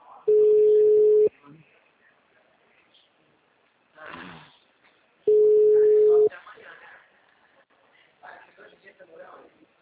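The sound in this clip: Telephone tone after a dropped call: two long, steady, mid-pitched beeps, each about a second long and several seconds apart, with faint voices and rustling between them.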